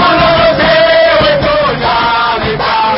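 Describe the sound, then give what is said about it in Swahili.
Crowd cheering and ululating at Melchior Ndadaye International Airport in Bujumbura to welcome runner Francine Niyonsaba; loud massed voices with wavering, high trilling calls running throughout. “Hizo ni shangwe na nderemu ambazo vilikuwa vikidirika kwenye uwanja wa ndege wa kimataifa Melchior Ndadaye ambapo raia wakazi wa manispaa jiji la Bujumbura walihudhuria kwa umati kumuraki mwanariadha Francine Niyonsaba”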